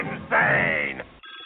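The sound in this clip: A telephone rings for an incoming caller: one short, bright, buzzing ring burst with a thin, tinny tone, then a brief drop before more sound follows.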